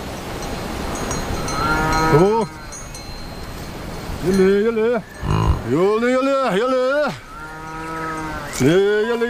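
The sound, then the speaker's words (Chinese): A herd of cattle mooing on a high-altitude Tibetan pasture: many deep, drawn-out moos one after another, some overlapping, several ending with a downward bend in pitch. “洛让达旺和家人需要跟随牛群，确保他们能吃到最肥美的牧草。”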